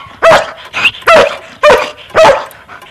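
A dog barks in a rapid string of sharp, loud barks, four strong ones evenly spaced with a softer yelp between them, alone with no talk.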